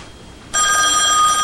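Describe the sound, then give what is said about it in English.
A desk telephone starts ringing after a moment of near silence, its bright, trilling bell holding loud and steady once it begins. “He crosses the room and answers the desk phone.”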